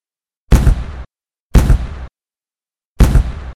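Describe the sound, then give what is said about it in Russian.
Three blast charges explode one after another in an echoing hangar: three loud, sharp bangs, each with a short, booming tail, the last coming after a longer pause. “Три взрывпакета в гулком помещении рванули так, что тут не только гранаты почудятся.”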